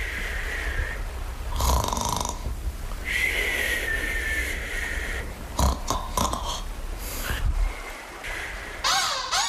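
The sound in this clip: Rough, rasping snoring from a worn-out sleeper: a few loud, drawn-out snores with gurgling, snorting breaths in between, heard alone without talk.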